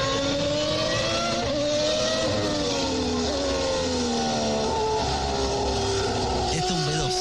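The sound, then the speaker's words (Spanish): A Formula 1 V12 racing engine screams at high revs in a continuous, loud, harmonic wail whose pitch drifts gradually before dipping near the end. “Sí, es un V12.”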